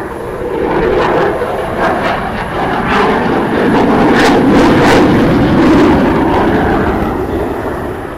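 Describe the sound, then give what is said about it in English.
A Typhoon fighter jet taking off, heard as a loud, continuous engine roar that swells gently through the middle and eases slightly at the close. “Is a takeoff. The typhoon.”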